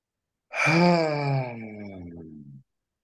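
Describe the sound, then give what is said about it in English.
A deep, audible breath out during a relaxation breathing exercise: one long, voiced sighing exhale lasting about two seconds, strongest at the start and sinking slightly in pitch as it trails off, heard alone. “You're going to take a nice deep inhale and a cleansing breath out. Audibly, I'll do it with you. Inhale and out.”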